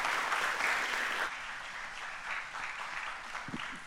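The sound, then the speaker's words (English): Audience applause welcoming a speaker to the front at a church service: a steady, dense wash of clapping that stays fairly soft and eases to a lower level after about a second. “Give her a hand. Come on.”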